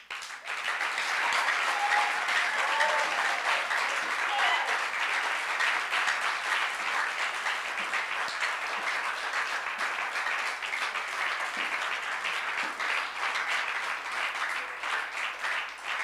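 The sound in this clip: Applause from an audience at a special church service, a dense, steady wash of clapping sustained evenly for the whole stretch without a break.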